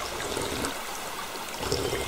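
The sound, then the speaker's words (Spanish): Water flows and trickles steadily like a small stream, a continuous bubbling wash with no pauses and no voices. “Juan usa su mano para tomar el agua que corre con alegría en el libro que Greta le está enseñando”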